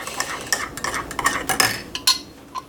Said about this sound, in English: Let's put that in here, give it a stir, which I'm going to stir up all the grounds that are left in here too